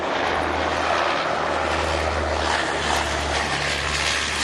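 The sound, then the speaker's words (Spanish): An airplane flying over the sea, heard as a steady, loud engine drone with a low humming tone that holds evenly throughout, with no voices. “Un avión, por suerte, te localiza.”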